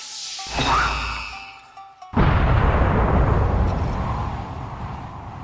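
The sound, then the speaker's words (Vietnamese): A loud explosion sound effect for a mighty fantasy punch that sets the sea churning and shatters the shore: a rising whoosh with a ringing tone, a brief dip, then a sudden heavy boom that rumbles and slowly fades. “Tiếng nổ lớn vang vọng khắp thiên địa, bốn phía nước biển cuộn trào, bùn đất ở bên bờ vỡ vụn.”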